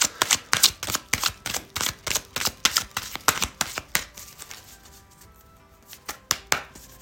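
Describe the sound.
Cards being handled and drawn from a deck of oracle cards: a rapid, regular series of crisp taps and slaps for about four seconds, then a pause, then a few more taps.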